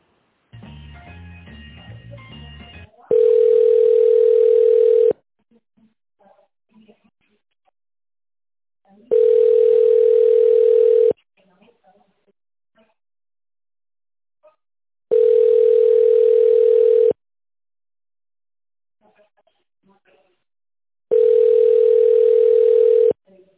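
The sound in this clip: Telephone ringback tone while a call is transferred to a manager: four long, steady, evenly spaced beeps separated by silence, after a short burst of garbled line noise.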